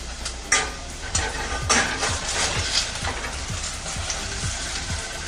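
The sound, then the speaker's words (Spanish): Sofrito with tomato sizzling in a pan: a steady, dense frying hiss with a few sharper knocks and stirring sounds scattered through it. No voices. “Ya se escucha ese ruidito rico que nos abre el apetito, ese sonido tan agradable que hace el sofrito.”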